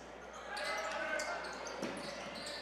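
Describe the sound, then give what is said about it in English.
Basketball dribbled on a gym court during a high school boys' game, Berks Catholic against Wyomissing, in a dribble handoff; a few sharp thumps stand out above a steady hum of crowd noise. “A little dribble handoff.”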